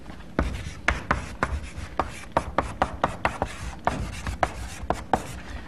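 Writing on a board during a lecture: many quick, sharp scratching strokes and taps in an uneven rhythm, fairly faint, with no talking.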